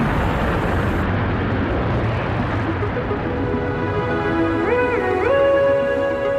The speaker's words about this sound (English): We thought we'd start today with a jet engine. That was the noise of the Virgin Galactic space plane heading up to the edge of space